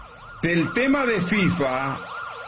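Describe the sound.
A siren sound effect wails in smooth repeated rising-and-falling sweeps throughout, with a voice sounding over it through the middle section.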